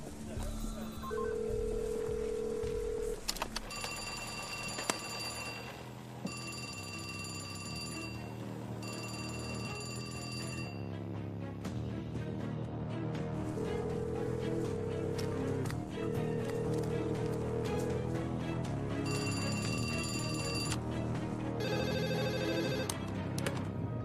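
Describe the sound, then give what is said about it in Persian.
A telephone rings in about five separate bursts of bright, repeating tones, heard as a call comes in for a police chief during an armed heist at a currency printing plant, layered over a dense, continuous background. “داریم تماس میگیریم. رئیس انگار داره زنگ میخوره.”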